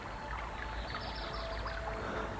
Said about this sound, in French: Je vois le cours d'eau.